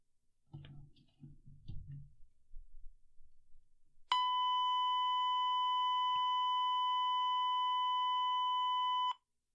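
A single sustained test tone, a steady pure pitch with faint overtones, holds for about five seconds and then cuts off abruptly. A few seconds of faint, low, irregular noise come before it.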